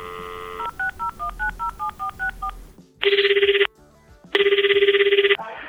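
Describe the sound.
A telephone number is dialed on a touch-tone phone: a brief dial tone, then a quick, evenly spaced run of keypad beeps, followed by two long, buzzing ringback tones separated by a short pause.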